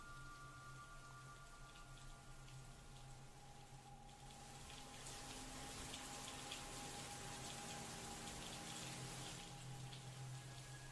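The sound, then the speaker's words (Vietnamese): Rain falls at night in a soft, continuous hiss and patter with no voices, growing slightly louder partway through and then holding steady. “Đến tận đêm trời vẫn mưa.”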